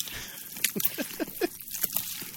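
Wet squelching and sloshing as a person wallows in a tub of jello for a foley recording, with a few thick, squishy surges in an irregular rhythm and no talk.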